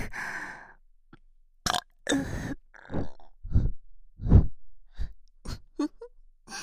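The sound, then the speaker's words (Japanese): Many short, guttural burps follow one another at irregular intervals, varying in length and loudness, some low and rumbling, others sharper and brief. “気持ちいいエロゲップ”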